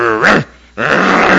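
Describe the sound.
A human voice imitates a growling dog with two rough, throaty growls separated by a brief pause. The second growl lasts a little longer than the first.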